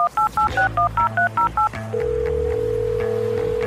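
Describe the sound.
Telephone keypad dialing tones place a call in a quick, evenly paced run of short beeps. A single steady tone follows and holds to the end over a low musical bed.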